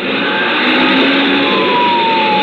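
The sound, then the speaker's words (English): A siren wails as a car engine accelerates and the car pulls out in front at speed on a road, loud and continuous, the siren tones drawn out and slowly shifting above the engine roar. “floored the gas pedal and pulled out in front. Sirens screaming, red lights flashing.”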